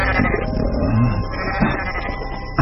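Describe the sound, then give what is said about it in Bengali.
A pregnant goat bleats loudly after being suddenly yanked out, giving strained, wavering cries in a continuous burst. “ছাগলটা গর্ভবতী। আচমকা এরকম হ্যাঁচকা টানে বের করে নিয়ে আসাতে তারস্বরে চিৎকার করে উঠল।”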